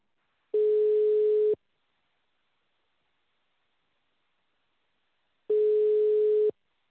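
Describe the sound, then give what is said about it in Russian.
A telephone ringback tone plays while a call to a property buyer connects: two steady, mid-pitched beeps, each about one second long, separated by a long silence. “Вам звонок с Яндекс недвижимости. Вам начинаем звонок покупателю.”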